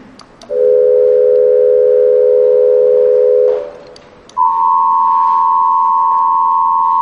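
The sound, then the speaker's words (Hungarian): Amplitude-modulated pure sine tones: a low steady tone with a faint warble holds for about three seconds. After a short gap, a higher modulated tone follows, loud and unbroken to the end. “Van egy 500 Hz-es 77, 1000 Hz-es 85, 2000 Hz-es 93-as, és egy 4000 Hz-es 101 Hz-el modulálva. Hallgassák meg ezeket.”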